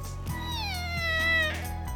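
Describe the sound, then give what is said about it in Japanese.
A kitten meows after being stepped on, giving one long, loud cry whose pitch sinks slowly as it goes, with a steady low hum underneath. “子猫だ。 踏んだのかお前。”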